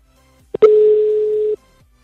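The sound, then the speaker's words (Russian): Telephone tone on a dialed call reaching a busy line: a brief click, then one steady, loud mid-pitched beep lasting about a second, heard alone. “Так, аппарат занят.”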